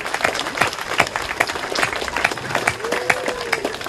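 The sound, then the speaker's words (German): Applause from a crowd at an outdoor jubilee festival marking the revival of a town's folk festivals: dense, continuous clapping with scattered sharp claps, steady and fairly loud throughout, with a faint tonal whistle-like sweep partway through. “Danke, einen Applaus.”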